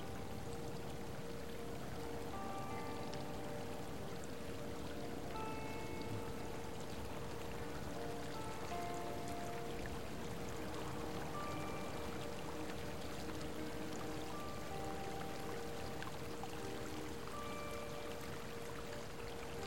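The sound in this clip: Water flowing in a hot spring, a faint, continuous trickling and pouring that stays steady throughout, accompanied by soft sustained musical tones.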